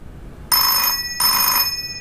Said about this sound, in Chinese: 接电话合适吗？